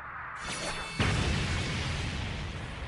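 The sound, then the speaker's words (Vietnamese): A thunderous explosion erupts from inside a secret realm, a sudden heavy boom that swells into a broad, sustained rumbling roar. “chỉ nghe một tiếng nổ vang trời truyền ra từ bên trong bí cảnh”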